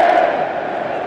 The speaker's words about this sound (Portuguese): E os Vikings voltam a fazer o seu espetáculo nas arquibancadas em Dallas. É a remada e aquele grito, né?